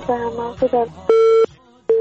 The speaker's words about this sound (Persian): با تاسف که تماس مستورا میهندوست قطع شد.